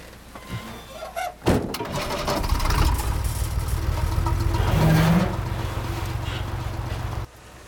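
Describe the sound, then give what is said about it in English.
Engine of an old limousine climbing a dusty dirt track: a sharp thump, then a steady mid-pitched engine drone that grows louder, holds for several seconds and cuts off abruptly. “The old limousine climbs a dusty dirt track away from the convent.”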